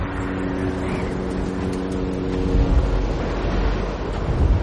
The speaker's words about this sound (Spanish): se acerca a un pequeño mirador desde donde observa el mar embravecido.